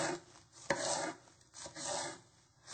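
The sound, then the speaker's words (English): A knife chopping celery very finely on a board for a salad dressing, heard as one sharp tap followed by a few rasping, scraping strokes that come in short bursts with brief gaps between them. “While waiting, we will chop up the vegetables for the dressing. We'll start with the celery.”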